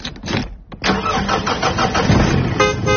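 A mobile bar truck's engine cranks with a brief burst of choppy pulses, then catches and settles into a loud, steady running rumble with no talk.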